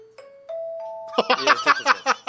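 A studio bridge jingle chimes: three sustained tones step upward in pitch, then give way to a brighter, busier run of pulsing notes that fills the rest of the short clip.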